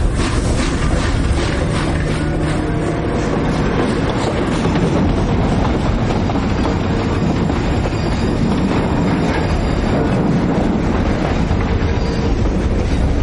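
A train slowly moving along the railway track, a loud continuous rumble with steady wheel clatter and faint metallic squeal, heard alone without voices.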